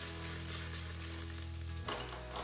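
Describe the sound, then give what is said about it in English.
Pork tied with butcher's twine frying with mirepoix in a pan, a steady, even sizzle and hiss with a brief shift in texture near the end as the pan is stirred. “That's just going to cook for a while we get some color on it. What we're going for is a nice medium to dark brown on both the mirepoix and on the pork.”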